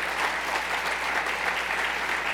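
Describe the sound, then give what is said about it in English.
Applause from an audience at a talk on criminal justice, a dense, steady wash of many hands clapping at an even loudness throughout, with no voices standing out. “Don't clap, because I only got 3 minutes.”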